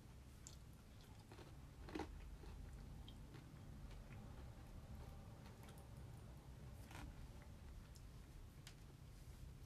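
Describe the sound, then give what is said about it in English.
Someone munches on Kentucky Fried Chicken, quiet wet chewing with a few soft crunches and one sharper bite early on, heard alone against faint background noise. “Right now, I'm just munching on some Kentucky Fried Chicken, bro.”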